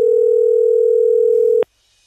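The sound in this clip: Telephone dial tone, a steady, loud, unbroken hum at one pitch that runs for about one and a half seconds and then cuts off abruptly into near silence.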